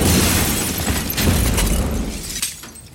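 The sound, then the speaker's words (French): A suicide bomb explodes at a Paris café terrace, a loud, dense roar of blast and crashing debris with shattering glass-like noise running the whole way, then a sharp burst near the end as the din thins. “près de la place de la Nation, comptoir Voltaire, les clients sont projetés par une explosion. L'un des trois terroristes du commando des terrasses vient de se faire exploser.”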